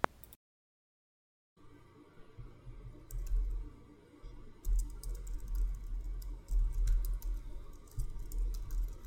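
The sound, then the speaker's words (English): Typing on a computer keyboard: after a brief silence, many quick, faint keystrokes come in uneven bursts of clicks. “I gotta type it.”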